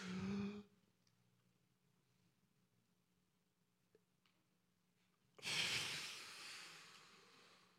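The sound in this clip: Deep human breathing: a loud, rushing breath at the start, then a long quiet pause, then a second, longer breath that swells and fades slowly, with no talking.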